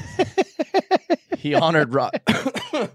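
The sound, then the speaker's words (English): A person coughs in a quick run of six short, evenly spaced, throaty bursts, followed by a stretch of talking broken by a couple more rough bursts. “Got that Roll Tide cough. Got that Roll Tide. Roll Tide cough.”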